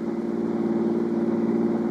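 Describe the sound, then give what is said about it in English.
A car engine drones as it drives fast late at night on Route 95 across a hot desert. The hum is steady and low, with a faint rhythmic pulsing and no voices. “You driving so fast to keep up the breeze, Johnny?”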